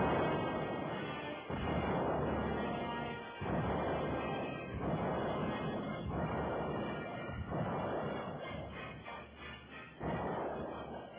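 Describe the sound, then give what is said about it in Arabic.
Artillery bombardment on the city of Suez during fighting with Israeli forces: a dense, continuous rumbling roar of booms, broken by several heavier bursts, fairly quiet throughout. “طلبوا من قيادتهم الضغط بالنيران. بدأ قصف المدفعية من جديد.”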